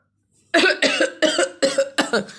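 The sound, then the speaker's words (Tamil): A man coughs in a rapid string of harsh, loud hacking bursts. He is an old man driven out of a tree hollow by smoke. The bursts follow one another closely, with no speech. “அப்படின்னு இருமிக்கிட்டே ஒரு ஆள் மரத்துக்குள்ளேருந்து வெளியில் வந்து குதிக்கிறாரு”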